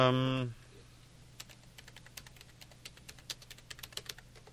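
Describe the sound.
Typing on a computer keyboard: a steady run of many light, irregular key clicks, fairly faint, following a short burst of voice at the very start.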